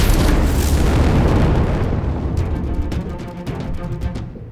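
A heavy explosive boom as weapons fire at a network node. The blast is loud and broad at first, then it decays into a long rumbling tail with some scattered crackle.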